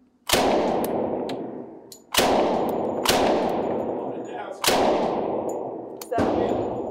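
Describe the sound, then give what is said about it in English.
A 1920s open-bolt submachine gun fires five loud, sharp shots, each followed by a long ringing decay that fades before the next, with uneven gaps between them. “Fires from the open bolt, you'll just throw your mag in. We're on safe, just flip it to fire, okay?”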